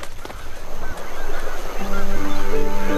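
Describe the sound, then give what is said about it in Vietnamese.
Chicks begging their mother bird for food: loud, rapid, nasal quacking cries that keep overlapping, with sustained tonal calls joining in toward the end. “Chúng muốn ăn thêm nữa. Chim mẹ bị đàn chim con đòi ăn quấy rầy.”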